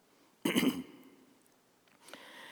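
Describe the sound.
A preacher clears his throat during a church sermon: one short, rough rasp, then quiet.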